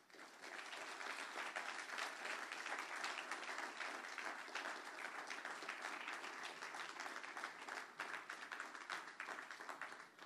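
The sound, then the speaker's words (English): A church audience applauds to welcome a guest speaker, with dense, steady clapping from many hands that holds at an even loudness for about ten seconds. “Put your hands together as we give GT welcome to our friend Godwin.”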